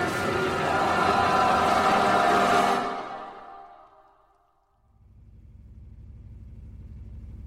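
A car driving on the road back to town. A loud, broad engine and road roar fades away to near silence, then a low, steady rumble rises and holds.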